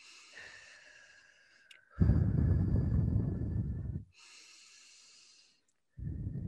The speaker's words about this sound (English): Take a few deep breaths in. So in through your nose and out through your mouth.